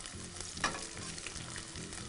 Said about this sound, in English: Just let these fry for just another 20-30 seconds. Get a nice little caramelization.